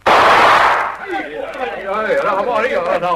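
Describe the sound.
A gunshot fired across the bow of a dinghy: one loud, broad blast lasting nearly a second, after which voices talk.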